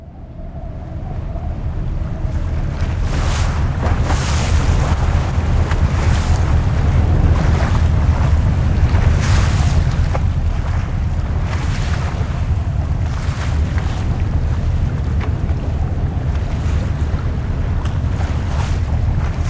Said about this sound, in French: Nous ramons. Ramons sur la mer grise.